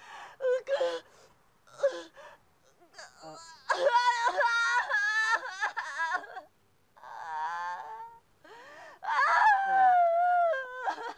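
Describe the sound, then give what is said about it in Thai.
A person sobbing and wailing in broken bursts, high wavering voiced cries separated by short gaps, with the longest, most intense wail near the end. “โอเคโอเคงั้นร้องไปก่อนเลยจ้ะร้องไปก่อนร้องให้เสร็จก่อน”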